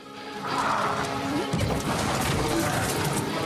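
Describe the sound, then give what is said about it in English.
A market stall kicked over and crashing during a fight, a dense, sustained clatter of breaking and tumbling debris with a sharper impact about halfway through, loud and steady to the end. “She kicks a market stall into the path of more attackers.”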